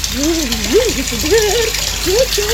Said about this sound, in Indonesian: Woi, matiin kerannya kalau udah tidak dipakai. Bentar, lagi mandi.